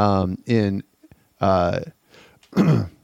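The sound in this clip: A person clearing a frog from the throat: a few rough, voiced grunting rasps separated by short pauses, each fairly loud and heard alone.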